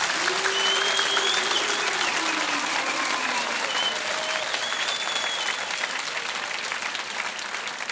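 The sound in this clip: An audience at a religious gathering applauds with dense, steady clapping that stays loud for the whole stretch. A voice is faintly audible over the clapping.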